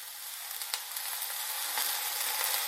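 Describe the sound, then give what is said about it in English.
Mushrooms sizzling in a frying pan as they are gently pushed around with a spoon, a steady crackling hiss with a few light clicks of stirring, unbroken throughout. “I just kind of like gently push the mushrooms around so they all, most of them anyway, are touching the bottom of the pan.”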